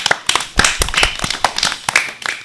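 An audience claps in many sharp, slightly irregular hand claps, loud and crisp, with no voices over them.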